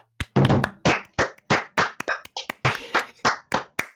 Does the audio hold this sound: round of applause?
yes